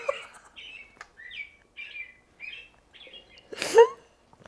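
Recorded bird song from a bird clock, a run of short, fairly faint high chirps and trills separated by brief pauses, closing with a louder, broader burst.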